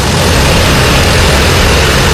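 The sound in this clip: A drone flying with spinning rotor blades makes a loud, steady, unbroken whirring roar that fills the whole clip, with no voices.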